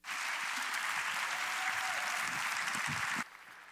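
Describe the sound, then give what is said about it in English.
A church audience claps for a guest speaker as he is welcomed to the stage. The applause is dense and steady, then cuts off abruptly near the end. “So would you please put your hands together and welcome Dr. Mark Hausfeld.”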